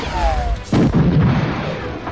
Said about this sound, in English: Han squeezed the trigger again. The blaster bolt ricocheted off Zaval's sled and struck the support pillar nearest the door